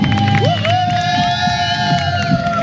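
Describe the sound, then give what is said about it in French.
Spectators cheer to encourage a runner in a 158 km race: a short, loud burst of shouting and rising whoops over general crowd noise. “Vous pouvez m'encourager s'il vous plaît? Ouais. Ah bah quand même. Merci, c'est gentil. Allez, un peu de bruit là-bas.”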